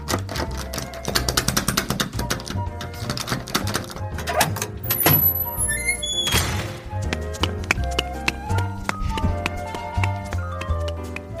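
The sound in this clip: Comic clip-clop hoofbeats for riding a mouse home, a steady, rhythmic clopping set against a busy musical backing that stays fairly loud for the whole stretch.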